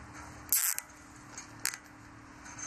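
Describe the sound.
A ropemaker cutting a safety rope net to size: a few short, crisp snips, the first a quick cluster and another about a second later, over faint background hiss.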